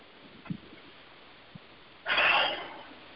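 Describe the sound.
One deep breath, a soft airy rush lasting about half a second, follows a stretch of near quiet broken only by a couple of faint clicks.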